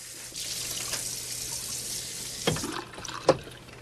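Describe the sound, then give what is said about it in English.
Water runs from a kitchen sink tap during washing up by a window, a steady hiss with a few soft splashes and knocks near the end. “In the kitchen, David washes up at the sink by the window.”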